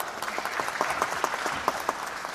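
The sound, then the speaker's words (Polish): Applause for a student during a music class about wind instruments, a moderate, even patter of many hands clapping with a few sharper claps standing out. “Brawo, brawa dla kolegi.”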